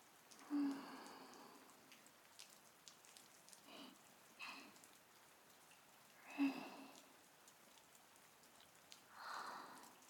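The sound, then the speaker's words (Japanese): Rain falling: a faint, steady hiss of drops with a few louder swells of patter scattered through, and no voices. “雨の音、心地いい。”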